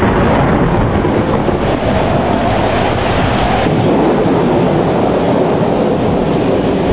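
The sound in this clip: Heavy rain driven by strong wind makes a loud, steady, dense roar that fills the whole clip without letting up.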